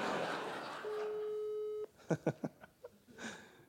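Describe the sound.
Telephone call ringing out unanswered: a single steady ringback tone lasting about a second at low level, followed by a few short bursts of talk.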